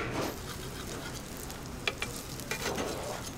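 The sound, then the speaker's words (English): Latkes sizzle in a frying pan as it is shaken, a faint, steady crackling hiss broken by a few soft clicks and rattles. “These guys are all, see how they're all just kind of dancing as I shake the pan.”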